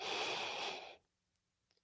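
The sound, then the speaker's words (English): A single deep breath drawn in: a steady, breathy rush lasting about a second that stops abruptly, followed by near silence with a few faint clicks. “We're going to take a deep breath, breathe in,”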